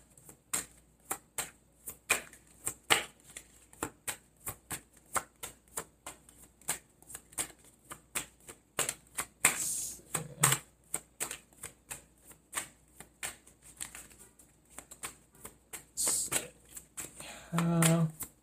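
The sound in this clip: Tarot cards being shuffled and drawn give many crisp, rapid riffling clicks and flicks in uneven bursts, with a voice briefly heard now and then.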